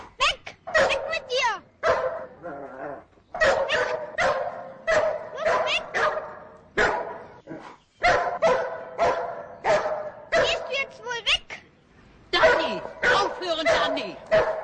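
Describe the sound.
Dog barking loudly and repeatedly at a man, the barks coming in many sharp bursts with short gaps, while people talk over them.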